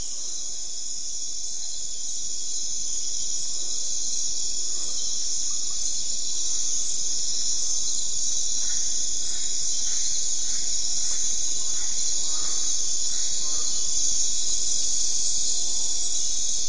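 Insects chirp at night in a dense, continuous high-pitched chorus, a shimmering layer that holds level the whole time over a faint low background.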